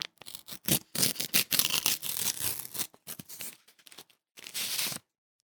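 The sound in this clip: A tea package is torn open in a string of irregular crinkly ripping bursts, some short and some longer, with a final sustained tear before it goes quiet.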